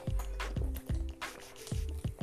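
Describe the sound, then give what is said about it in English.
Water being drunk in several soft, low gulping swallows in an uneven rhythm, quiet and with no talk. “just drinking some more water. Give me a second, y'all.”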